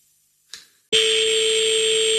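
An unanswered phone ringing on a call to a ride-hailing service in Paris: a soft click, then a loud, steady buzzing ring tone that holds unbroken to the end.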